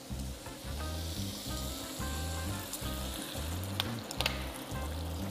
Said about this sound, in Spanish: Fijaros cómo ha cogido ese colorito ahí. Vale, no queremos más. Ahora añadimos la crema de leche.